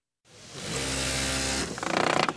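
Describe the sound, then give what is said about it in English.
Factory machines sew and pound together ergonomic furniture in a cavernous plant in Nogales, Sonora: a loud mechanical whir starts abruptly and holds steady, then breaks into a fast, rhythmic chattering pulse near the end. “In a cavernous Nogales, Sonora factory, ergonomic furniture is being sewn, pieced, and pounded together.”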